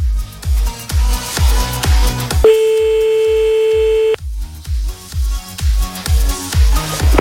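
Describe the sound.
A telephone call is placed again, with one steady electronic phone tone holding for under two seconds over a loud, regular thumping beat that runs throughout.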